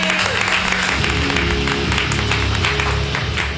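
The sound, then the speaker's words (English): Audience applause for a comedian at a comedy workshop show, a sustained burst of crowd clapping that stays loud and even throughout the few seconds. “So put your hands together.”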